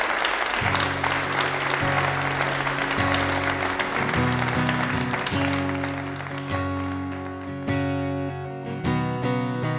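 An audience at the Red Barn Radio live show in Lexington applauds to welcome a band back, with steady, dense clapping. Sustained instrument notes sound beneath it, and the applause thins gradually toward the end.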